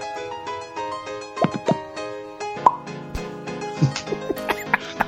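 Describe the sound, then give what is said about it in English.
A voice imitates the last few popcorn kernels popping, making a run of short mouth pops and plops over voiced tones. The pops start sparse, then come more quickly toward the end. “What would it sound like when the last three kernels popped”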